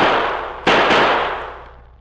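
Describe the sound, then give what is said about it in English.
The last three bullets fired from a gun, sharp loud cracks in quick succession, each trailing into a long, fading echo. “I'll fire them now.”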